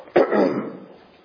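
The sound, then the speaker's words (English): A single throat-clearing cough from a tickle in the throat: one sharp burst trails into a rougher rasp that fades within about a second, heard alone. “Wow, this tickle in my throat is really tickling.”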